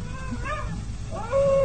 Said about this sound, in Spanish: Otra vez los aullidos. Efectivamente. Bueno, tal vez se trate de un lobo solitario o bien una bestia humana.